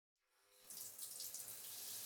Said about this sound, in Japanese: さすがに今この場で体を洗うわけにはいきませんので、頭流しますね。